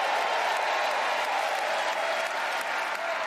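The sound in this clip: An audience cheers and applauds in a dense, steady wash of clapping that stays loud and even from start to finish, with no voice over it.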